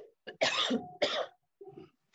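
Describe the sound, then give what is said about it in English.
A person coughs several times with no talk around it: two strong, harsh bursts in the middle, framed by shorter, softer throaty catches before and after. “so hold on, I'm going to cough”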